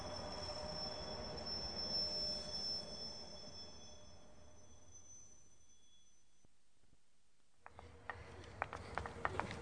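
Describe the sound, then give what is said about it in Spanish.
A train pulls away from a station platform, its wheels squealing in high, thin tones over a soft low rumble. The squeal fades out, and a few faint clicks of the wheels follow. “Vamos a los andenes. Ay, tal vez esté en ese tren que se va.”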